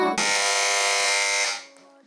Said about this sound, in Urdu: جی تو اس بار سب سے پہلے بزر بجائی ہے ٹیم اے نے۔